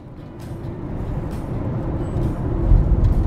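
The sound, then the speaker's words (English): A car driving on an overcast morning in Thompson, Manitoba, heard as a steady low rumble of engine and road noise that slowly grows louder, with no voices. “I'm driving through Thompson, Manitoba once again, overcast, about 14 degrees now.”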